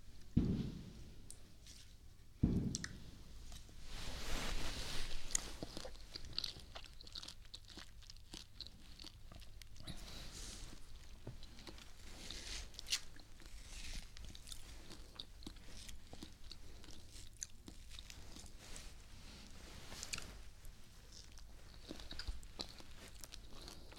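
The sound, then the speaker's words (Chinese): Biting and chewing of a sweet food, a crisp crunch near the start followed by quiet, continuous wet mastication with small clicks, faint and without talk. “你别说，这还挺甜，尝一口。你张嘴，怎么样？好吃吧？”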